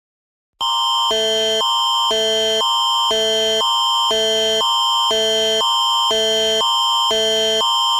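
An emergency alert tone from a Canadian tornado warning blares: a loud, harsh two-tone signal that switches steadily between a higher and a lower pitch about twice a second after a brief silence at the start.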